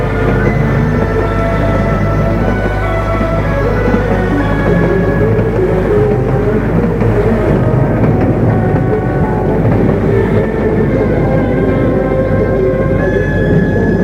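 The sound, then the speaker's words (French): A train rumbles steadily as it arrives at a station: a continuous, loud low-pitched drone and hum with dense rattling texture throughout. No voices are heard. “Le train est arrivé en gare de Chambéry.”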